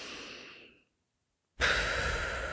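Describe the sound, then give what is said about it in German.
A slow exhale through loosely closed, pursed lips after a nasal inhale, making a small puffing sound. A breathy rush fades out, a short silence follows, then a louder steady stream of air runs to the end. “Du machst so ein kleines Puffgeräusch, so ein beim Ausatmen.”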